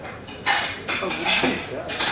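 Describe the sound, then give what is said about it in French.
Cutlery clinks and clatters as it is laid out on tables along with napkins; a few sharp metallic bursts stand out above a quiet, steady background. “On est en train de mettre tous les couverts, les serviettes, tout ça.”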